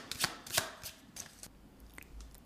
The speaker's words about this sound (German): Eine neue Aufgabe der Woche zu ziehen für unseren nächsten Gast. Genau, jetzt wird hier noch einmal kräftig gemischt.